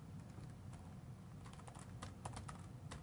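Keys tapped on a computer keyboard while a password is entered. The soft, irregular clicks grow denser toward the end over a steady background hiss.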